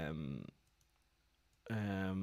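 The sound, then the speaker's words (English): A computer keyboard is typed on in a few faint, quick clicks during a quiet pause between stretches of speech. “So I'm just going to type in, I think I remember this, hold on.”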